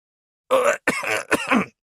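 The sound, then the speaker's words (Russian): A man's short cough, a throaty clearing sound in three quick bursts close together, heard alone with no talk. “Невольно кашлянул он.”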